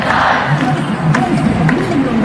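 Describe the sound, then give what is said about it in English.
Protest crowd against Israel near Herald Square outside Macy's in New York; a brief, loud wash of many voices shouting together. “This is the sound of protests against Israel near Herald Square outside Macy's yesterday.”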